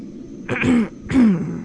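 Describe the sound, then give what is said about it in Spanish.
A deep male voice performs a throat clearing, two rough, rasping bursts in quick succession, each with a gravelly low grunt underneath. “la profunda voz parecía ahogársele en la garganta y tuvo que carraspear.”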